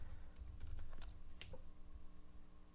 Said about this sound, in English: let me make sure that it's going to come up when you type this in.